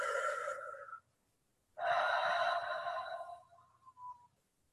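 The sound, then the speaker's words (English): A long, deep human breath, drawn out in two breathy phases separated by a pause, the second longer and fuller, trailing off into a faint whistling tone at the end. “every time I need to make a big decision, I take a long breath, I go,”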